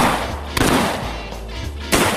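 Gunfire on a bird hunt in a field with a dog: two sharp, loud shots ring out alone, roughly a second and a half apart, the second slightly stronger, each fading into a steady background hiss.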